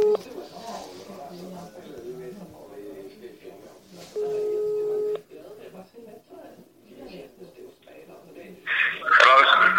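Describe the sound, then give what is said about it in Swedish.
An outgoing phone call rings while waiting for an answer: one steady ringback tone sounds for about a second partway through, amid ongoing talk. “Vi ska se om han svarar nu.”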